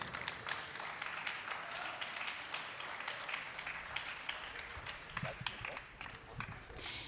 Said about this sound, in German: das machen Anna und Peter mit großem Applaus auf die Bühne. Anna Babka und Peter Klar, bitte.